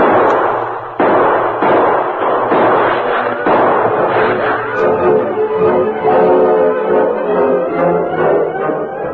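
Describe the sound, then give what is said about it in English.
Gunshots exchanged in a canyon below a hill: several sharp, loud cracks spread through the first half, set against a sustained tonal background that continues to the end. “you continue to give answering shots to theirs”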